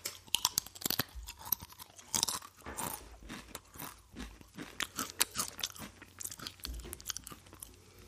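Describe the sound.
Crunchy chewing and biting while someone eats food, with many irregular, sharp crunches and moist mouth sounds in a steady rhythm of bites, fairly loud and close, with no talking.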